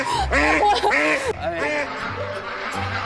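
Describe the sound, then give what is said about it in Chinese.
Duck quacking, a plump, heavy bird of about six jin: a few nasal, harmonic quacks come in quick succession, loud and alone, followed by quieter, softer calls over a low steady hum. “我现在掂了一下这个分量啊，这只鸭子还确实挺结实。”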